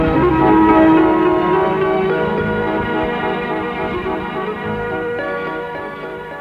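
A doorbell rings at Christine's, a bright chime whose overlapping ringing tones sound loudly and then fade slowly.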